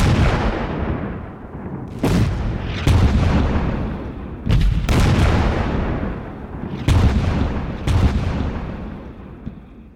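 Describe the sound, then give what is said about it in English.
A World War I artillery barrage at the Battle of Loos, with guns firing together. Several heavy, sharp blasts break over a continuous deep rumble, and each boom rolls off before the next strikes. “Red flashes of artillery guns could be seen from the observation sites at a distance. For the men near, it was a continuous, loud, deafening boom, filling the air with smoke and the earth shaking at their feet.”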